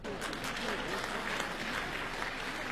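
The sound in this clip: Audience applause at a Chinese crosstalk comedy performance: dense, steady clapping that fills the whole clip at an even level, with no break or clear peak.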